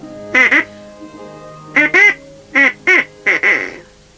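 Duck quacking in a quick series of loud, nasal, rasping calls, some in close pairs and some single, with short pauses between bursts and no talk.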